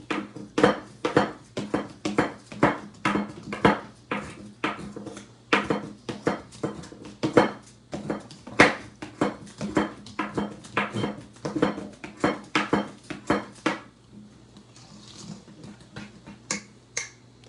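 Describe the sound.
A Pogo whisk mixing in a bowl makes many quick, sharp clacks at a steady, brisk rhythm. The clacks stop near the end and leave faint background noise.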